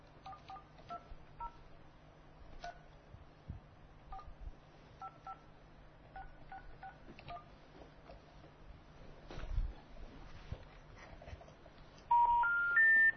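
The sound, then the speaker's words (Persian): Touch-tone keypad beeps as a phone number is dialed on a radio call-in program, many short tones in an irregular series over low hum, ending in a louder three-step rising tone. “اون شماره شون من یه بار دیگه میگیرم.”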